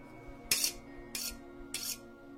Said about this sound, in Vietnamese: Trên tay cầm một con dao làm bếp sáng loáng, tay còn lại thì cầm một cái liếc. Cứ thế, ông ta vừa đi, vừa mài vào nhau nghe ghê rợn hết cả người.